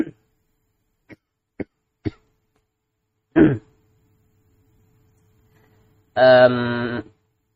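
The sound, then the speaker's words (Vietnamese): A person coughs after choking on saliva: a few short, sharp throat bursts, then a harsh cough, then after a pause a longer, voiced hacking cough. “Nước miếng sặc. Mắc công thấy ho khi vừa dính Covid nữa.”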